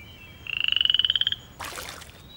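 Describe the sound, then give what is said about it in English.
A frog croaks in a pond with a rapid, high-pitched train of pulsed clicks that grows slightly louder, followed by a brief noisy burst. “There's a frog in the pond,”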